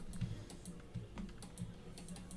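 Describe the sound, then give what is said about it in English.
Typing on a computer keyboard: many quick, irregular clicks and taps, soft throughout, with no voices. “Okay, I'm gonna type it out.”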